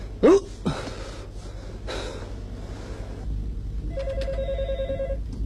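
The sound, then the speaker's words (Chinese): A telephone rings toward the end: a short burst of steady electronic trilling tones over low background noise, preceded by a brief sharp sound and a few soft thumps. “小杨电话， 哎，来了。喂，哪位啊？”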